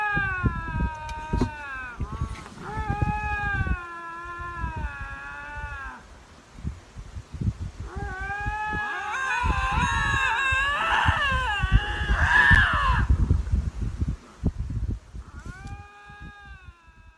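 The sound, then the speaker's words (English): Two Canada lynxes calling to each other with long, wavering, cat-like yowls that rise and fall in pitch, trading calls back and forth and overlapping into a louder, rougher exchange in the middle. “Yeah, so these are... two Canada lynxes.”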